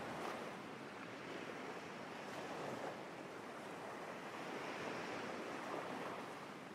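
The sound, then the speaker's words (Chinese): Ocean waves washing onto a sandy beach, a faint, continuous hissing surf that swells and eases gently, with no voices. “一波波的海浪温柔地拍打在岸上，拥抱着沙滩”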